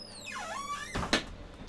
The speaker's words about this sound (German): Okay, dann wir machen die Tür zu.